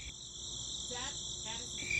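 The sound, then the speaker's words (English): A crickets chirping sound effect: steady, high-pitched trilling that pulses evenly and continuously, fairly faint, with no voices over it. “That is the sound of nobody calling. No. That's crickets.”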